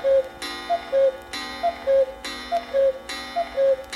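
A clock at twelve noon repeats a ticking and chiming pattern about once per second, with bright bursts alternating with short clear tones in an even, mechanical rhythm.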